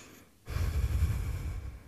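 A slow, deep breath drawn in during a group prayer, soft and steady, starting after a brief quiet moment and holding for over a second.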